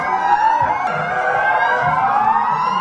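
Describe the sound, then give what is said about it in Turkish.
Sirens sound during a commemorative night march in Akdağmadeni, Turkey, as one loud, sustained, steady wail with a slight slow waver in pitch and no talking. “Hemen bakalım. Sirenlerimiz çalıyor. Yürüyüş başlamış Akdağ Madeni'nde.”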